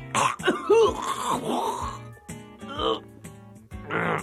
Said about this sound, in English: it appeared I had something caught in my throat. Probably a shred of newspaper, or perhaps a coffee ground.